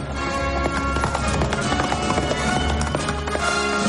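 Horses galloping at full speed through a canyon: rapid, steady hoofbeats run throughout, loud and dense, mixed into a continuous tonal backdrop, with no speech.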